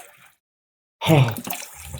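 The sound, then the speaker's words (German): Water poured into a container, a sudden splashing rush that starts after about a second of near silence and continues steadily to the end. “So, jetzt machen wir mal ein bisschen Wasser hier rein.”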